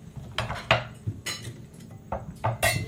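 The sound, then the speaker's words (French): Plates and cutlery clink and clatter as a table is set for a meal of couscous, with several short, irregular knocks and bright chinks separated by brief pauses. “Je peux te donner une assiette de couscous, oui. Peut-être qu'on va mettre la table pour ça.”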